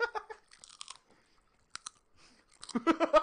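Crisp cracking and crunching as something is broken open right at the microphone. A few sharp, scattered snaps are separated by near silence, then a louder, denser burst of crunching comes at the end.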